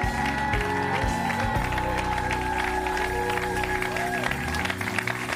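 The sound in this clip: A church audience applauding and cheering, a dense, steady wash of clapping and voices that holds at an even level throughout, with sustained tones running underneath.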